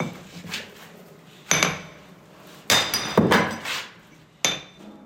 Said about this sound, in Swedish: Han slår på sidan av stenen med en stor mejsel så att rätt stora bitar far bort.